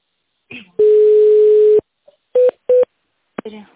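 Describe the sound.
A telephone line tone sounds while a call is transferred. A steady tone holds for about a second, then two short beeps follow. Brief fragments of voice come just before and after.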